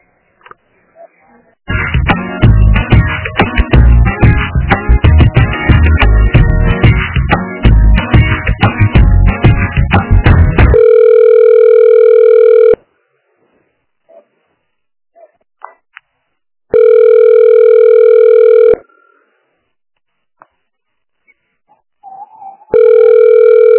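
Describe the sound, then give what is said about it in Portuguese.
Telephone ringback tone on a call to a busy office extension. A dense burst of other sound comes first, then loud steady two-second tones separated by long silences, with the last one cut off. “O ramal está ocupado. Você tenta na opção 8. Mas eu já liguei também, não deu. Vou tentar de novo, mas estava ocupado, tá?”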